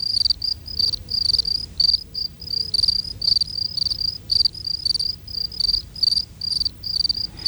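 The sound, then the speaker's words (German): A chorus of three field crickets chirping, one sitting in shade and singing slower than the two in warm midday sun; high, shrill pulsed chirps repeat steadily and densely throughout, with no voices. “Der Gesang der Grillen kann uns dabei weiterhelfen. Es müsste euch bei dem Chor der drei Grillen nämlich etwas auffallen.”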